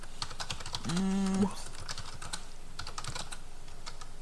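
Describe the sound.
Fingers type on a computer keyboard in a quick, uneven patter of light clicks that runs steadily through the whole stretch, with no talking over it.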